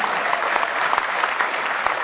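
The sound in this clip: Applause from a church audience, a dense, steady wash of many hands clapping that holds at an even, fairly loud level for the whole stretch.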